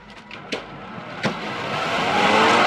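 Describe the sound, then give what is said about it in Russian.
A car pulls away after someone runs to it and gets in: a few sharp knocks sound first, then engine noise swells and holds steady as the car moves off. “Бежит к машине. Садится. Поехали.”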